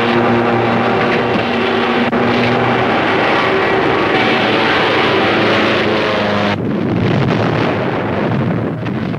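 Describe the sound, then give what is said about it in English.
Airplane going into a steep dive with its pilot slumped against the controls, a loud continuous engine roar mixed with rushing wind that holds steady, then shifts abruptly in tone near the end. “The plane goes into a steep dive.”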